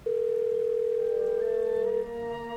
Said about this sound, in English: Watching from my window, I make a phone call as they gather,